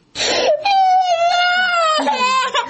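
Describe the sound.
A young child cries in one long, loud wailing sob that holds a high, steady pitch after a breathy start, then breaks into a shorter catch near the end.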